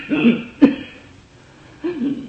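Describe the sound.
Someone coughs, choked by incense smoke, in a few short, rough bursts. The middle burst is sharp and abrupt, and a throaty cough follows after a pause.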